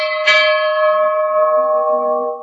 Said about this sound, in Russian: Конечно, только ударь не чуть-чуть, а как следует. Капитану нравится, когда колокол подает голос. И Генчик ударил.